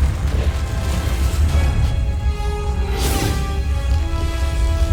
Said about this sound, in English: Hear the rumbling, the cracking. Mm-hmm. That's as the kind of the volcanic crack opens up.